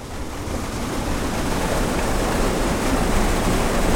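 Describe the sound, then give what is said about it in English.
Flowing water at a drinking water treatment plant in Huntington, West Virginia, a steady, dense rushing roar that stays even from start to end, with no voices. “This is the sound of the West Virginia American Water Treatment Plant in Huntington, one of 14 drinking water plants that found blooms in their intakes during last summer's outbreak.”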